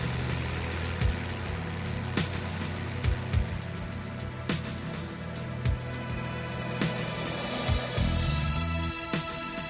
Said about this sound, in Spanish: Este es el sonido del motor.